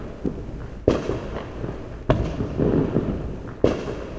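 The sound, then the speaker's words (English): Gunfire next door sounds as three loud, sharp booming bangs, evenly spaced over a steady low background rumble, each bang trailing off quickly. “Joe says this is going really well with the gunfire next door”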